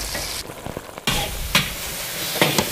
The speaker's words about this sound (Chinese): 燕子粑一下锅就裹上了一层酱色的外衣，高温炒制下，淡淡的米香也飘散出来。